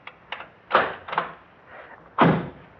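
A key unlocking a lock, heard as a few separate metallic clicks and clunks of varying strength over about three seconds, with no talk.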